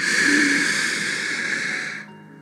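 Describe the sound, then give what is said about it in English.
A slow, deep inhale taken as a calming breathing exercise: a long, steady, airy hiss lasting about two seconds that eases off and fades near the end. “start to slow down your breaths. Take deep inhales like this.”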